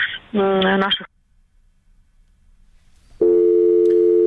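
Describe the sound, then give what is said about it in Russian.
Telephone tone after a dropped call: two long, steady, harmonic-rich tone bursts separated by about two seconds of near silence. “Как вы слышали, оборвался, к сожалению, звонок”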